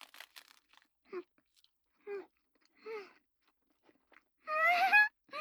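Chewing of hand-rolled sushi with sashimi and salmon: crisp crunching bites at the start, then a few brief murmured hums spaced apart, ending in a louder, longer hum.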